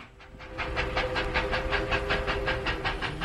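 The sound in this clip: Train wagon clatter used as a radio sound effect: a fast, even clickety-clack of many repeated rail beats over a low, steady rumble, with no voices.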